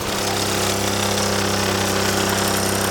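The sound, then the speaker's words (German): A Solex moped engine, a design about eighty years old, runs with a loud, steady buzzing drone and a dense mechanical rattle that holds constant throughout, with no voices. “Also, ich muss einfach den Motor runterlassen, Gas geben, den Dekompressor hier drücken, Anlauf nehmen und dann geht's los.”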